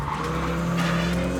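A car without a front bumper skids through a handbrake turn, its tyres squealing in one continuous, loud smear over a steady engine drone, with no talk.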